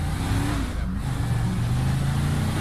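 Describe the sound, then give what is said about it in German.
A car engine drives and revs in a video game, a continuous droning rumble with steady low harmonic tones that hold throughout without a break. “Du sollst durch die Fensterscheibe fahren.”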